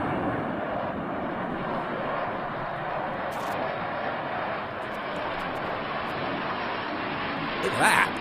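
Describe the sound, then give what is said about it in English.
Aircraft engines roar in a steady, broad drone as planes fly past at Norwich Airport, holding at an even level with a slight swell near the end. “Actually, this is apparently a fly past this morning at Norwich Airport.”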